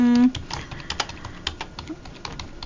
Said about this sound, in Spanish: Para que me digan, ¿se oye el teclado?